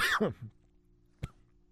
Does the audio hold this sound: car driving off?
no